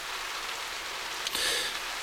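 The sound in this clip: Steady, unending rain makes an even, continuous hiss throughout, with a brief louder swish just past the middle.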